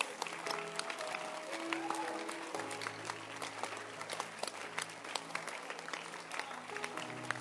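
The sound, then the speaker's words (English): A church audience stands and claps, a continuous dense patter of many hands, fairly quiet throughout, with some sustained musical tones underneath. “I'm happy you stood up to clap your hands.”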